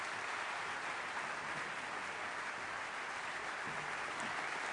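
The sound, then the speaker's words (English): Audience applause welcoming two speakers on stage at a Silicon Valley event: faint, continuous, even clapping that neither builds nor fades across the whole stretch. “So please, let's hear a warm Silicon Valley welcome for David Brooks and Judge LaDoris Cordell.”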